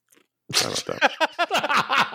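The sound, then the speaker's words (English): Ice cubes crunched in the mouth after a sip of water: after a brief near-quiet moment, a quick run of loud, close crunches and bites follows in an uneven rhythm. “I just took a sip of water and took a bunch of ice in my mouth”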